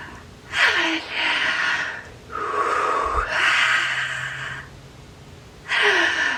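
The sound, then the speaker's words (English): Deep breathing during a guided meditation: a long, airy inhale, then a slow, drawn-out exhale, with another breath starting at the end. “Deep breath.”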